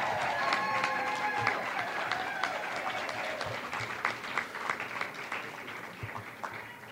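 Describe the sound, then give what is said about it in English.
An audience gives a round of applause as a man walks back into the room. Dense, steady clapping fills the whole clip and tapers slightly toward the end. “Mikey Wiseman has now walked back in the room, so let's just give him one more round of applause.”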